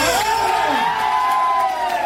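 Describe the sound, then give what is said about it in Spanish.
Loud shouting and cheering from a group of men, a men's cheering section at a contest, with a high whooping yell that rises and then holds steady over continuous crowd noise. “Estos hombres gritan”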